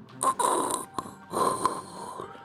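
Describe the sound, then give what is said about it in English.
A voice imitates the rattling, labored breath of a wounded man during a tabletop role-playing game. Two long, raspy, snore-like rattles with short snorting catches are moderately loud and heard alone. “The whole first floor goes quiet. You hear this rattling breath of De La Cruz.”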